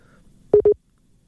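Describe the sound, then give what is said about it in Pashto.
Two short, steady beeps of a busy tone sound back to back after a telephone line is cut off. Quiet follows them, with no voices. “د نبی الله د ټلیفون لیکه پریک شو”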